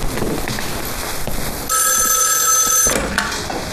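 A telephone rings loudly in a single bright, buzzing burst lasting about a second, with quieter background noise before and after it.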